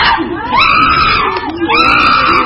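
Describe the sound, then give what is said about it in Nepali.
Excited shrieks from two animals in an enclosure as they eat fruit and vegetables: loud, high-pitched calls rising and falling in two long bursts, with rough lower cries underneath. “चम्पा र चिम्पुले आआफ्नो भाग लिएर खान थाले। केही बेरमै उनीहरू उत्साहित हुँदै कराउन थाले।”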